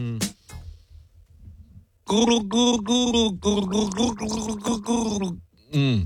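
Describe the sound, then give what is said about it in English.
Person gargling while vocalizing a tune: several bubbly, voiced gurgling bursts with clear pitch, preceded by short breathy sounds and a quiet pause. “Let me just practice gargle.”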